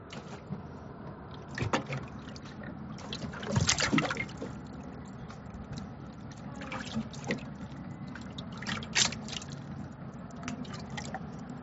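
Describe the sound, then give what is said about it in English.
Water laps gently against a pontoon boat idling on a lake in Park City, making soft, irregular splashes and drips over a steady low wash. “That's the sound of a pontoon boat hanging out on a lake.”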